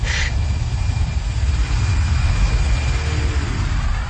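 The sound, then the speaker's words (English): Steady, loud engine roar of a weathered, battered Mark VI hover bus setting down, a sci-fi vehicle: a deep rumbling drone with airy hiss above it that holds level throughout, with no voices. “turned to see a weathered hover bus setting down outside the security line.”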